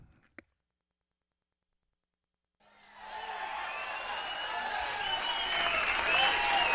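Audience applause at a blues show, with a clapping crowd entering after a few seconds of silence and swelling steadily louder to the end.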